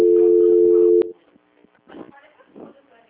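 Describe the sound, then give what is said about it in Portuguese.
Telephone ringing tone during a call transfer: one level, steady tone lasts about a second and then cuts off, followed by brief voices talking. “Não, tá chamando, mas chama até cair, volta a ligação.”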